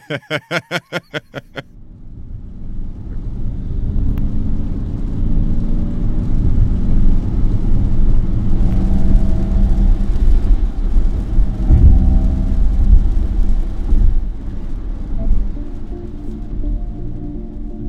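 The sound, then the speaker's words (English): Artificial propulsion sound from a Ford Mach-E electric car: a steady, loud, low whirring hum with layered tonal bands, preceded by a quick burst of sharp clicks at the very start. “That's an artificial propulsive sound. And it's, we took the Mach-E out and drove it in Williamsburg”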